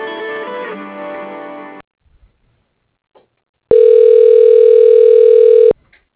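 A steady telephone line tone sounds while a call is being transferred to voicemail. It holds a single unbroken pitch for about two seconds, after a short burst of other sound and a quiet pause with faint clicks.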